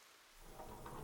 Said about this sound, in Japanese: 予報じゃ晴れだったのに雨。朝からずっと止まないな。